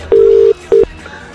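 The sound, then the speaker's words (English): Telephone tones as a number is dialled: two loud, steady electronic beeps at the same pitch, a longer one followed by a short one, with no voices. “We're just going to dial a number.”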